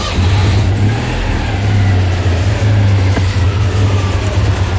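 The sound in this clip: A car engine runs as the car is driven, giving a loud, steady low drone with slight swells in level. No voices are heard over it.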